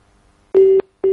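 A telephone disconnect tone sounds after a call is cut off. Two loud, steady beeps at a single pitch are separated by silence.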